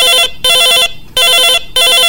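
Telephone ringing for an incoming call: a loud, warbling electronic ring of rapid trilling tones in four bursts separated by short gaps, with no voices.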